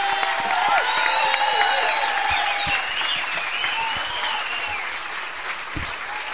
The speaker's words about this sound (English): All right, ladies and gentlemen, please put your hands together and welcome Sugar Hill recording artists Jack Lawrence and Doc Watson.